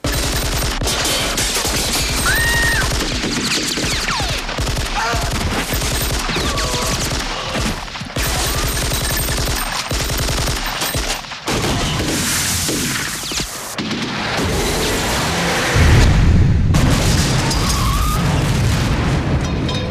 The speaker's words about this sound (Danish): Rigtig pigt, de er blevet udstyret med automatvåben. og de skal nu opføre deres hele egen symfoni.